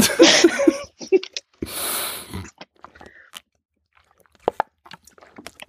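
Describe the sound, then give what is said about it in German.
Someone taking a quick drink, heard as a few short wet mouth and swallowing sounds and a longer breathy rush, separated by brief silences. “Warten Sie. Ja, ich trinke ganz kurz was.”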